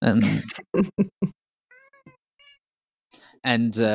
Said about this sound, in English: my cat wants to talk to you.